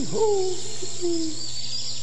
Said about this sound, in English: Oh, it's you again, the same old owl.